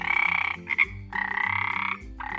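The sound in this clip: Frogs croak by the edge of a lake in rapid, pulsing trains of rasping calls. The calls come in several bursts of different lengths, with short pauses between them, loud and steady with no voices.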